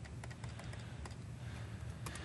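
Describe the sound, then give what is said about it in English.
Rapid mouse clicks as a check-in button is pressed over and over, many quick faint taps in a steady stream. “So again, I have the big obvious check-in button, so we'll just click that a whole bunch of times.”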